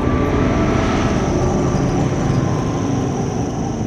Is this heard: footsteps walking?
no